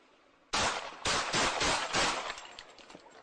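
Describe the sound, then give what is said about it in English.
Gunshots fired by a police officer at a man: an abrupt burst of several loud, sharp cracks in quick succession, then a decaying tail as the firing stops. “Shots fired! Shots fired!”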